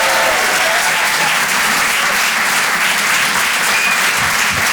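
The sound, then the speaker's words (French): Audience applause for a performer at a comedy and song show: dense, steady clapping from many hands, loud and even throughout, with no voices over it. “Faites du bruit, s'il vous plaît, pour Nikos sur les chansons.”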